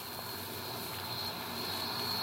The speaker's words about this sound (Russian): Вот так включается двигатель. Вот, наш самолет должен развернуться и двинуться к взлетной площадке.